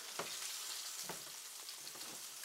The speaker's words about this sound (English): So we have both sides seared up nice. And like I said, sometimes if you go a little bit longer on one side, you have to, you know, you just kind of gauge it.